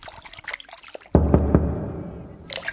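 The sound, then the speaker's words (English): Water sloshing as something is soaked and scrubbed: a sudden splash is followed by three quick strokes and a steady wash of liquid noise that fades, with softer sounds before it. “Soak and scrub. Soak and scrub.”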